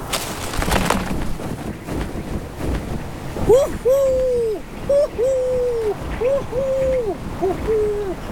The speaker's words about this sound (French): Le harfan reprend sa chasse. Il monte haut dans le ciel pour scruter le sol.